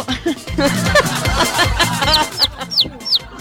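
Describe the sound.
A person voices a hen's clucking: after some talk, a series of short, high, squeaky clucks repeats at a steady pace, moderately loud.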